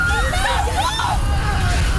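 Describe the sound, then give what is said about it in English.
Crowd noise from a citywide water fight at a high school grad car parade, where graduates are sprayed with a fire hose and garden hoses. Shouting, overlapping voices ride over a steady, loud rushing roar with a low rumble underneath. “A citywide water fight. High school graduates getting hit with a fire hose at Hapnock Collegiate's annual grad car parade. People spraying the grads with hoses and throwing water balloons.”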